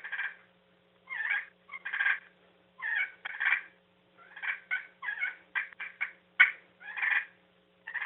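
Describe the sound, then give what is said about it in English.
A friction game call imitates a contented turkey purr, like hens feeding. Many short, rolling, trilling bursts come in an uneven rhythm with brief silent gaps, heard alone. “it sounds better on a mouth call than it does on a friction, but it works. If you hear a turkey purring, they're content.”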